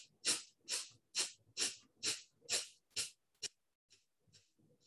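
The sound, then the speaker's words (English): Quick, short breaths in a yogic breathing exercise: a rapid, evenly spaced series of sharp, breathy puffs that start loud and fade to faint, softer breaths toward the end. “Exhale all the way out. Inhale halfway. And quick, short, 11 breaths.”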